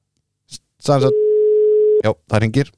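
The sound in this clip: Telephone ringing tone heard while dialling a number: a single steady, even-pitched note about one second long, with talk just before and after it.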